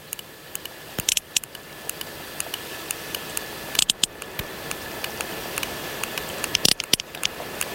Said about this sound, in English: This is the sound of another sperm whale from the eastern Mediterranean.